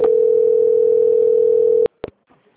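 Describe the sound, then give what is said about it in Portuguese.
Telephone line tone during a call transfer: a single steady pure tone holds for nearly two seconds, then cuts off with a couple of sharp clicks followed by near silence. “só um momentinho então que eu vou transferir o senhor para o controle de qualidade, tá bom? Só um momentinho. Transferência.”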